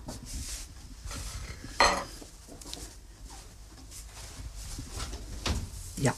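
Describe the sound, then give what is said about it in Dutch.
Metal clatter of a baking tray being taken out of an oven by a cook wearing oven gloves, with a few sharp clanks and faint rustling and scraping between them. “Ik zal nu mijn handschoenen nemen voor die bakplaat uit te halen.”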